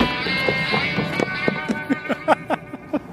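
Running footsteps in flip-flops going down a wooden ramp: many quick, light slapping footfalls in a fast, uneven rhythm over a steady background hiss.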